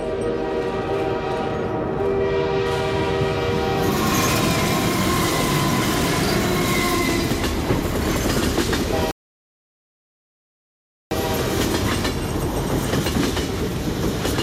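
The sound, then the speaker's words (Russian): A train pulls into a station platform at night. A loud, steady rumble of rolling wagons carries a sustained horn-like tone early on, then breaks into a few seconds of silence before the rumble resumes. “Поезд появился из темноты, предваряемый потоком белого электрического света. Снова стало темно. Пахнуло гарью. Покатились друг за другом вагоны.”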